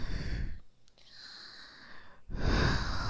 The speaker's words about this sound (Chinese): 经过我几次在你耳边的深呼吸，